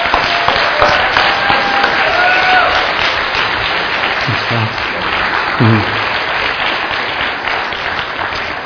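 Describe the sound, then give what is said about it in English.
A church audience at Cornerstone applauds to welcome a guest preacher, with sustained, loud, dense clapping throughout and a few brief voices rising out of it partway through. “So let us give this brother a very warm Cornerstone welcome.”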